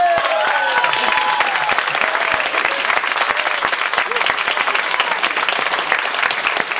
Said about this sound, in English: please put your hands together and make some noise for Professor Glenn Loury.